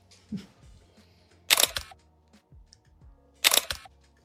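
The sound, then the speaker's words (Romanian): A photo camera's shutter fires twice, each release a sharp, bright mechanical snap spaced about two seconds apart, with softer clicks and handling noises in between. “este superb aparatul ăsta foto. Da să vă fac și așa una.”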